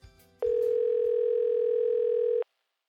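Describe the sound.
A telephone tone during a phone call: one steady, unbroken electronic tone lasts about two seconds and then stops abruptly. Faint brief noises come just before it starts.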